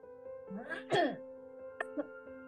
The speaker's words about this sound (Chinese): 我清一下喉咙，因为现在是早上，然后我发现我越录越冷。